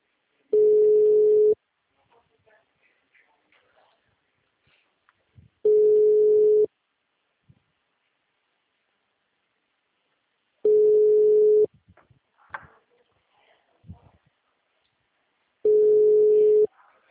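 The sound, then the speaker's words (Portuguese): Telephone ringback tone while calling someone: four steady beeps, each about a second long, spaced roughly five seconds apart, with faint scattered background noises in the gaps. “Vamos ver se ela me atende de novo. Não custa tentar, né?”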